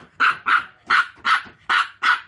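A dog barks six times in loud, sharp, evenly paced barks, barking madly at a large carp flopping about as it is gutted.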